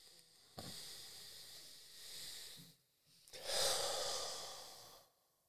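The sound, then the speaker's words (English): A person demonstrates a deep breath: two long, airy, hissing phases, the second louder and brighter, with a short pause between and no talk. “Like a deep breath is like,”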